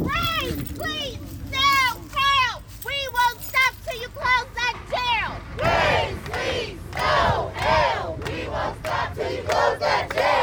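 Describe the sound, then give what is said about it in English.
A crowd cheers and whoops as the walls of the Workhouse jail are torn down. Many raised, shouting voices come in repeated loud bursts, growing denser in the second half. “As the walls came down, they celebrated.”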